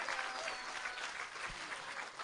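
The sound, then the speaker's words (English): An audience in a tent at an event gives rousing applause after a guest, with dense, even clapping throughout, heard faintly. “Give him a rousing applause, yeah?”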